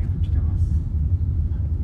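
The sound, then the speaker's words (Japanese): A car rattles along a rough, narrow paved road, giving a steady low rumble and road noise throughout, with a voice heard over it. “ちょっとガタガタしてきましたよ。 舗装路ではあるんですけど荒れてますね。”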